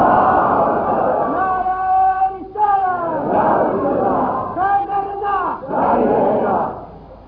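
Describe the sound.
A crowd at a religious gathering shouts the Takbeer slogan in response. Several loud chanted phrases from massed voices follow one another with brief breaks between them.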